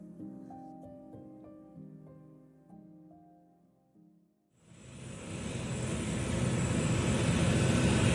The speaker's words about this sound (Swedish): Germanwings flight 9525 lyfter från Barcelona flygplats.